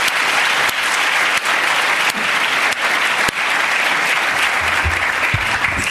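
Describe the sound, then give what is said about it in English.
Sustained audience applause greets the opening speaker of an evening debate at LSE, steady dense clapping that holds at a loud, even level for about six seconds with no voices on top. “I wonder if you can give a big hand to Danny Quah, who's going to open the debate this evening.”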